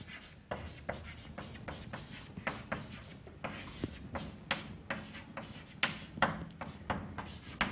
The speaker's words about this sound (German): Ich schreibe es an.